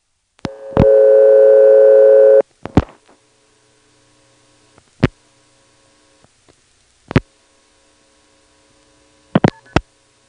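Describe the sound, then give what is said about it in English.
Telephone signaling after dialing 116: a steady tone at the start, then a few isolated clicks and brief tone bursts marking key pulse and start. Stretches of line silence fall between them. “And there it is again, key pulse plus start. This time Asheboro wasn't listening, so we don't have a reorder, we just have silence.”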